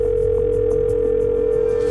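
A telephone tone sounds as a call is placed, one steady, even pitched tone held for about two seconds before cutting off.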